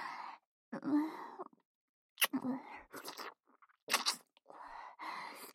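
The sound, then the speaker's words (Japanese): Wet mouth sounds of deep kissing come in several separate bursts of smacking and slurping, broken by short silences, with breathy sighs and low groans mixed in. “ディープキスを味わうなんて拷問みたいでしょ。”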